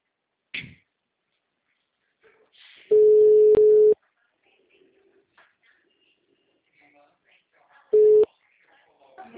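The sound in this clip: Telephone ringback tone while a call is being placed: two steady, mid-pitched electronic tones, the first about a second long and the second much shorter, separated by a long quiet gap with faint background sounds.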